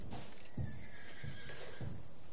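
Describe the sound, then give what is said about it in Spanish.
A horse whinnies in a historical drama scene, a drawn-out, moderately loud call with a few soft hoof clops beneath it. “¿Le gusta más este? Me encantan los caballos. Son inteligentes, fuertes, leales.”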